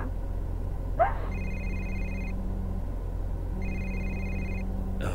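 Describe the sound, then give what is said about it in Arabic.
A telephone rings with an incoming call: two separate ring bursts of a steady electronic tone, each about a second long, with a pause between them. The rings are fairly quiet over a constant low hum. “هذا اسلام قاعد يتصل”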